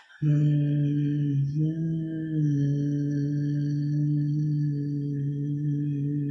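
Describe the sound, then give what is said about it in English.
A person hums a single low hum. It starts abruptly, wavers slightly early on, and holds steady for about six seconds with nothing else heard. “I hum and I put my hand on my chest and I just go,”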